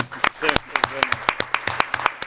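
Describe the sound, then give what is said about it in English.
Scattered hand clapping from a workshop audience applauding the speakers: many distinct, fairly sparse claps, with voices talking over them. “I would like to also ask you to give another round of applause for all the speakers.”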